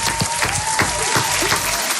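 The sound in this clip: An audience applauds a participant with steady, dense clapping, a loud and even patter that holds at one level without breaks from start to finish.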